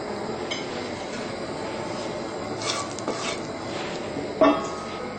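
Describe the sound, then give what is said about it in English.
Soybean sprouts and mung bean sprouts stir-frying in a little oil, giving a steady, soft sizzling hiss with faint scraping and a brief louder clatter near the end. “I'm going to stir fry the soya and the mung bean sprouts. So I just put a little bit of oil there.”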